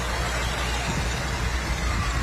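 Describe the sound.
A Farmall tractor engine runs in a parade, giving a steady, dense rumble that holds throughout without a clear rhythm.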